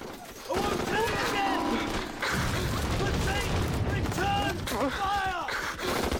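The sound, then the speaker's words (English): Machine gun fire in a film war scene: loud, sustained bursts of automatic gunfire mixed with shouting voices, dense and continuous throughout. “Frankie gets to his feet and machine guns the enemy, but Peter remains rooted to the spot, paralyzed with fear.”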